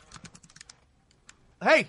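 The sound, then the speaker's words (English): Light clicking of fingers typing on a computer keyboard, a quick faint run of keystrokes that stops and leaves a short silence, then a voice cuts in loudly at the end. “Look who's all stop typing as soon as you guys start the show. No, what do I hear? The clickety clack.”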